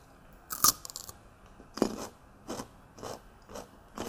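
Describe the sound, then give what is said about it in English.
Crunchy fresh radishes are bitten and chewed in a close, quiet recording. Several crisp, irregular crunches and chewing snaps stand out against near silence. “So got some nice radishes. I haven't tasted these. Sometimes they're spicy, sometimes they're not.”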